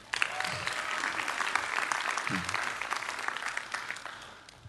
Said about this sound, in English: All right, show Hannah some love.